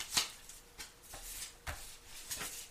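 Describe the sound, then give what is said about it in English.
Cards are shuffled and drawn during a card reading, heard as a few soft, crisp riffling bursts and slaps spaced apart. The sounds are faint, with no voices. “May I have a card for March, please?”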